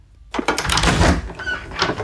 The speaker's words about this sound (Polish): Drzwi się otworzyły.